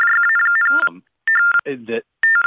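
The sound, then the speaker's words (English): Someone's mobile phone goes off with a loud electronic ringtone in rapid, evenly pulsed chirping bursts. Gaps of warbling, voice-like sound come between the bursts of ringing. “What is that? I'm getting feedback. Oh, it's his phone.”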